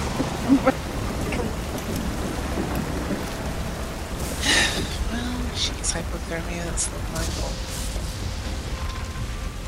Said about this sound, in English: It is torrential rain outside.